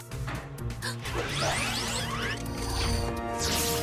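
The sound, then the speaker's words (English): A cartoon blast of orange goo fired at a robot: loud whooshing, sweeping noise with splattering crash-like bursts, continuous and dense throughout. “Laszlo fires orange goo at the last robot while Barbie catches up with Dunbar.”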